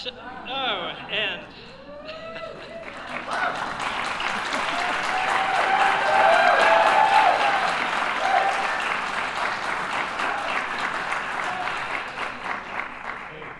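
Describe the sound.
Audience applause for a District 5 representative follows brief speech at the start, then swells into dense clapping that peaks around the middle, with cheers mixed in, before gradually thinning out.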